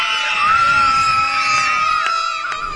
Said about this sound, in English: Can I hear your battle cry?